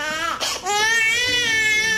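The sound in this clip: A young child wails loudly after being dropped, crying in sustained high-pitched sobs that dip briefly before rising again and carrying on strongly to the end.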